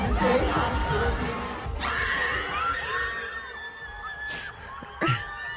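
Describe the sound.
A concert crowd in Argentina erupts as the singer names her boyfriend mid-song: loud, sustained high-pitched screaming and cheering, with a sharp burst of shrieks near the end.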